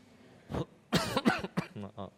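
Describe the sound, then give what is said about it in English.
Someone with a persistent cough after the flu coughs a few times in rough, throaty bursts. The bursts are close together and fairly faint, and the last ones turn voiced and hoarse. “Sorry, I have this persistent cough after the flu. So it's the last thing that's remaining.”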